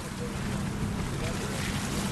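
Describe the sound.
Wind and water rush steadily during a boat ride across Boston Harbor toward Spectacle Island, off South Boston, forming a constant, even roar with a low rumble and no distinct individual sounds.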